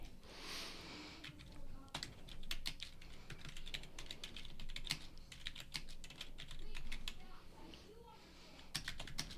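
Typing on a computer keyboard produces many quick, irregular key clicks with short bursts and pauses, sharp and fairly crisp throughout.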